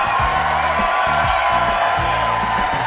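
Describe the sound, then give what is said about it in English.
A large, rowdy live audience cheers in the Merle Reskin Theater at DePaul University in Chicago. The crowd noise is a dense, steady roar with whoops mixed in, and it stays loud and unbroken from start to finish. “We are on stage in front of a rowdy and large crowd”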